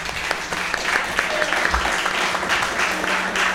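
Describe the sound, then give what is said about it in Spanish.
Audience applause at a live event, many hand claps merging into a steady, even wash of sound that holds for several seconds without a clear fade. “Aplauso para Leo.”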